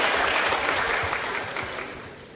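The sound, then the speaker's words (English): Audience applause welcoming speakers onstage before a science talk at UC Davis: steady, dense clapping that holds for the whole stretch and thins slightly toward the end. “Let's give them a warm welcome, please.”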